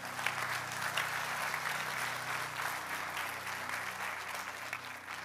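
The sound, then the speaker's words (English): A church audience applauding in praise of God, steady dense clapping that holds at an even level from start to finish. “Can we give God a big shout of praise today?”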